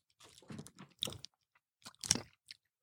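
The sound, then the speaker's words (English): Crunching and chewing of Mexican candy, Revolcaditas, in a few quiet, irregular bursts of crisp bites separated by short pauses, with no talking. “I'm eating this. All right, I'm trying Revolucaditas.”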